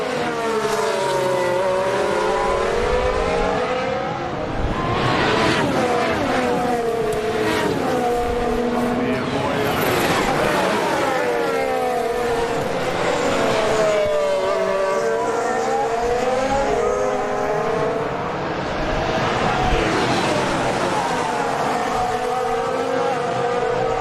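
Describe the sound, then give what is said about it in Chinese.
Racing cars roar along a track while overtaking a slower car, loud continuous engines sweeping up and down in pitch again and again. “三位车手现在在争夺第一的位置，现在遇到慢车，哎，慢车让过。”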